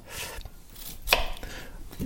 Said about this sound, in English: Just keep cutting onions